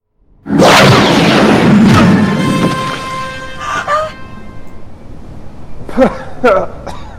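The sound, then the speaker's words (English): A blast of blue energy rays from a godlike being's eyes knocking a man backwards in a science-fiction drama: a loud, roaring burst that gradually fades over a few seconds, followed by brief vocal sounds. “Blue rays shoot from God's eyes, knocking Kirk backwards.”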